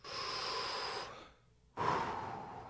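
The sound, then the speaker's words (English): A preacher's deep breath: two loud, airy breaths about a second long, separated by a short silent pause, with no talking. “Deep breath.”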